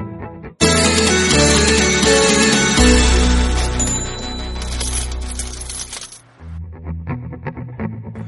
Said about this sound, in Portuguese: Roda a vinheta.